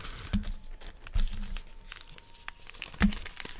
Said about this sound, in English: It's all the same size sort of packet. I mean, look at this. This is genius. This is, you'll love this. So this is all the salt, pepper, tea bags, sugar, creamers.